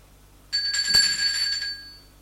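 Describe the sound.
A doorbell rings once at the door of a woman's home: a bright, sustained bell tone with a short low thud near its start, fading away after about a second and a half.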